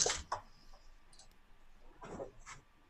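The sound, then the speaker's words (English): Dice clatter during a tabletop role-playing game: a few sharp, bright clicks right at the start, then another softer rattling burst near the end, with quiet background between. “Once I'm not dropping all of my dice.”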